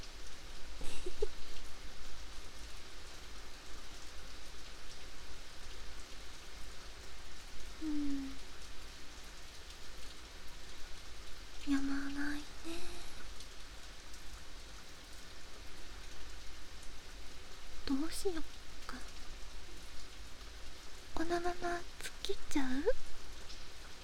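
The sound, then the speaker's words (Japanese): Rain falling as a steady, soft hiss that stays faint and even throughout, without a break. “雨で濡れちゃうかもしれないけど、どうする？”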